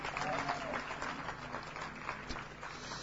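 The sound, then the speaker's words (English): A church audience applauds after a drama performance, with dense, steady clapping and crowd noise that carries on for the whole stretch. “Wonderful drama. Let's put our hands together for them.”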